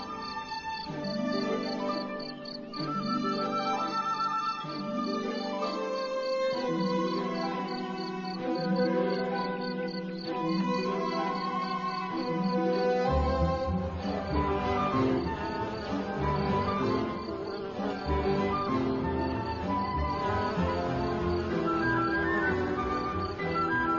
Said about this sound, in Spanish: Aquí los grillos parecen estar dispuestos a demostrar su valía. Pueden ser escuchados desde grandes distancias.